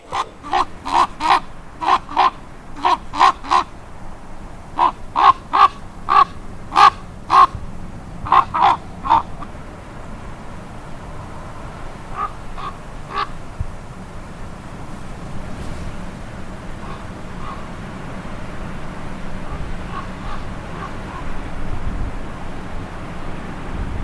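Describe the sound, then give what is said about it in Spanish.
Crows caw in Gran Canaria, with many loud, harsh calls in quick bursts over the first ten seconds, then a few fainter, scattered caws over a steady background. “tenemos a continuación los sonidos de un cuervo, porque no es el canto más melódico, pero ¿quién puede dudar que los pájaros hacen música a su manera”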